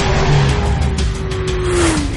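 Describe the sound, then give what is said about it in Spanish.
A motorcycle engine roars loudly as the bike zigzags and skids between cars in traffic, a continuous whine that dips in pitch toward the end over dense road noise. “El motorista mira inquieto hacia atrás. Zigzaguea entre los coches. Derrapa y pasa entre dos.”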